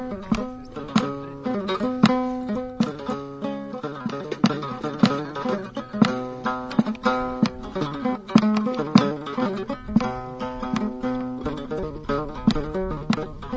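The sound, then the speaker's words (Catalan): A Tuareg teardant lute, played solo and struck with a ring, produces many quick plucked notes in a steady rhythm. The sharp, percussive attacks create a drum-like pulse beneath the ringing strings. “Teardant. Una mena de llaüt tuareg que sona d'aquesta manera.”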